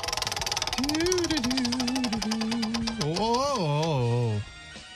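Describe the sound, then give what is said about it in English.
A prize wheel spins with rapid ticking clicks that gradually slow down, while a wavering, sliding tone plays over them and then stops. “All right, give it another spin.”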